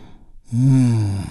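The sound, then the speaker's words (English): A deep breath drawn in and slowly released: a quiet inhale leads into a long, audible, voiced sigh-like exhale that fades gently. “taking a big, deep healing breath with me. Here we go. And release.”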